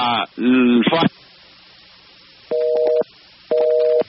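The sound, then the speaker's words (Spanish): A busy signal follows a dropped phone call: after a brief burst of speech, two steady dual-tone beeps sound, each about half a second long, separated by a half-second pause. “se ha caído la llamada”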